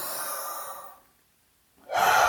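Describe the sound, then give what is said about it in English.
Slow breathing during a guided mindfulness exercise: one long, airy breath fades into silence, and after a short pause another breath starts loudly. “let's just take another breath in”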